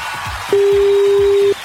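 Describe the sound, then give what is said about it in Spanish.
Phone ringback tone on an unanswered call: a single loud, steady beep about one second long, standing out over a faint, low background. “Ahí está marcando. Ojalá que conteste.”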